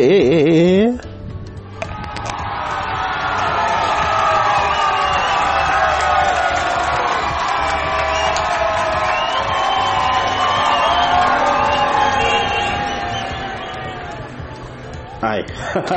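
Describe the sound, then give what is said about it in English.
A crowd applauds and cheers with whoops, the sustained roar holding steady for many seconds before fading away near the end. “Ayan, palakpakan natin ang ating mga sarili.”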